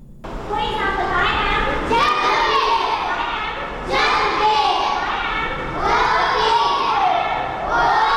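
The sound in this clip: Working children in Peshawar fill the air with a dense, unbroken mix of chatter, calls and shouts, many young voices overlapping loudly throughout.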